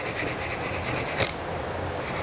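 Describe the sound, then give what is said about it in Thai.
Sandpaper rubs along the edge of a piece of softwood to round it off: a quick run of short, faint rasping strokes, then a softer continuous rub. “สังเกตว่าไม่สนเนี่ยขัดนิดเดียวมันไปแล้วนะเห็นไหมขัดนิดเดียวเองไปแล้วนะฮะ”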